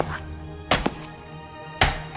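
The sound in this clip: Heavy chopping as a body is hacked into pieces: two loud, dull thunking blows about a second apart, each ringing briefly over a low steady hum.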